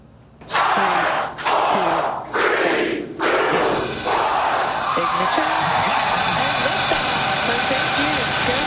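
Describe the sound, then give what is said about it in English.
A SpaceX Falcon 9 rocket lifts off at night from Kennedy Space Center. A few loud bursts give way to a deep, continuous rushing roar that stays powerful to the end. “So that's SpaceX's Falcon 9 lifting off from here, Kennedy Space Center.”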